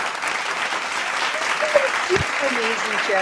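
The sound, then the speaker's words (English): Authentic finger snaps, done live during a conversation, form a dense, continuous crackle of quick snapping with a few sharper pops. Voices are heard talking over it. “these are authentic snaps. These are authentic snaps. I just did that while you were asking him a question.”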